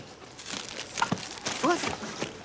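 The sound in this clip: Shopping bags crinkle and rustle while being held, with a few soft crackling bursts and muffled voices.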